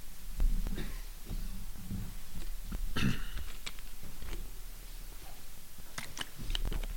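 Throat clearing and a cough, with a couple of short, rough, low bursts and the strongest one midway, over a quiet background with no talking.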